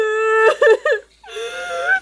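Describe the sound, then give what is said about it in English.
Sobbing from a king and a princess, with wavering, high whimpering wails in two bursts and a short gap between them. “The king and the princess were both sobbing.”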